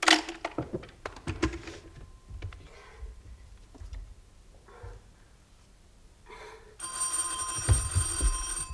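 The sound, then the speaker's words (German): A hotel telephone rings with a bright, metallic bell trill that starts after several seconds of soft clicks and faint handling noises, then continues steadily to the end. “Ich werde wieder angerufen.”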